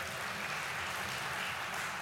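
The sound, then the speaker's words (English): Applause from an audience at a speech: a dense, steady patter of many hands clapping at an even, fairly loud level from start to finish. “Could I get some clapping hands for Joe Davis County?”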